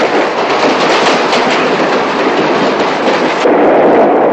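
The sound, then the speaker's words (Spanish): A train crosses a bridge over a river in the 1965 epic film Doctor Zhivago. Its loud, continuous, dense roar of rumbling wheels and metal grows a little heavier toward the end. “El tren pasa sobre un puente cruzando un río.”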